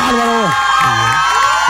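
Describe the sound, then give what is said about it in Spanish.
Crowd cheering and whooping for performers at a palenque show: a loud, continuous mass of shouts lasting under two seconds, with one voice's gliding cry standing out on top. “¡Otro aplauso a los muchachos del Palenque!”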